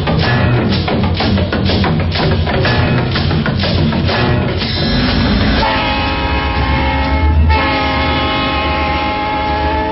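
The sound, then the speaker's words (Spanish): A Genoa-Venice-Trieste passenger express train leaving the station platform: a rhythmic clatter of wheels, then a loud, sustained horn tone that holds to the end, with no voices. “El expreso Génova-Venecia-Trieste parte exactamente a la hora indicada el convoy de pasajeros abandona el andén”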